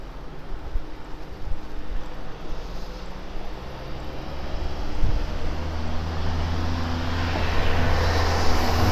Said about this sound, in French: il y a un camping-car qui me dépasse.